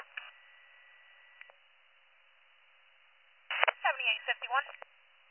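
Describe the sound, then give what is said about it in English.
Telephone keypad dialing tones on a thin, narrow-band line: a couple of brief, faint beeps early on, then after a lull a louder cluster of rapid tones mixed with other sound. “dialing 7851.”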